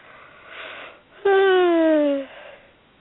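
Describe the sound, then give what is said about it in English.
A big voiced yawn from a person, a soft breathy intake followed by one long drawn-out vocal tone of about a second that slides steadily downward in pitch before cutting off. “Big yawn.”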